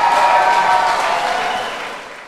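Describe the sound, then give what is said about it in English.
An audience applauds to welcome two guests: a dense, steady patter of many clapping hands that gradually fades toward the end. “So please welcome, be nice, put your hands together for Andrew and Brett.”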